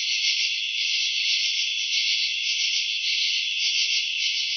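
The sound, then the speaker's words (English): A dense summer chorus of night-calling insects makes a steady, high-pitched buzzing drone that never pauses, heard alone and evenly loud. “most of us don't know what makes this summer chorus”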